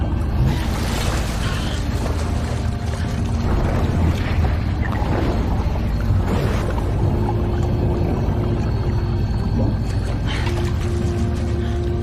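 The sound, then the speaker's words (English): Water churns in a steady, dense, turbulent rush with no clear breaks. The sound stays loud and continuous throughout, with a broad splashing roar. “Bubbles escape his mouth. The water churns.”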